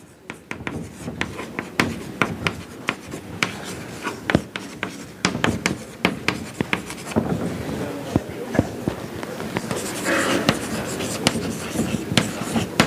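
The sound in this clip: Handwriting during a mathematics lecture: many quick scratchy strokes and sharp taps in an irregular rhythm, some louder than others, continuing steadily with no voices.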